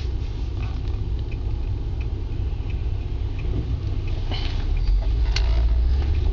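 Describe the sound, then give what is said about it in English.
Traffic passing on a road just off an interstate, a continuous low rumble of engines and tyres that swells slightly toward the end. “Gotta wait for some vehicles to go by.”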